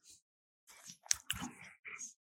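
Crunchy chewing of a hard nugget, a short cluster of crisp, wet bites and squishes after a brief pause, moderately loud mouth sounds with no talking.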